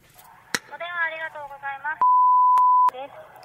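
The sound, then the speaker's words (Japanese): A steady electronic telephone tone sounds after a call is dialed. It holds one pitch for about a second, follows a stretch of talking, and is bracketed by short sharp clicks. “OK。かけます。OK、かけました。”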